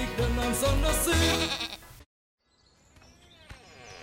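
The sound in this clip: Sheep bleat in a fenced farm pen: loud, wavering cries with low thumps fill the first two seconds, then a short silence gives way to softer, fainter sounds.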